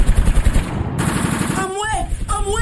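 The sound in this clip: Rapid bursts of automatic gunfire crackle in dense, loud volleys during violent street clashes in Haiti, then give way to sharper, scattered noise.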